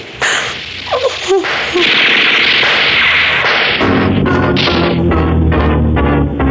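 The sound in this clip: Gunfire sound effects in a radio drama shootout: sharp, loud shots and cracks burst out repeatedly at uneven intervals, with dense, clattering bursts continuing through the second half.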